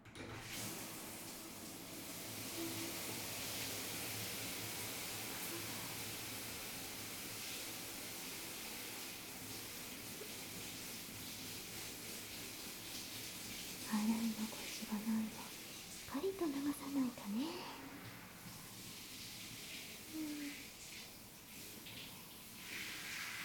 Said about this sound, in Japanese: じゃあまた泡の時と同じようにシャワーで流していくね。よいしょ。かけるよ。